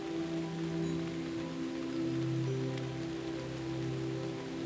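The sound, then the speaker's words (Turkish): Rain falling in a forest, a steady, dense patter with an even hiss throughout. Low sustained tones run beneath it. “Yağmurda orman bambaşka görünürmüş. Yağmur damlaları, bitkileri, çiçekleri pırıl pırıl parlatırmış.”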